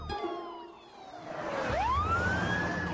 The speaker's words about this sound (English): The sheriff, a fire engine, and a truck arrive.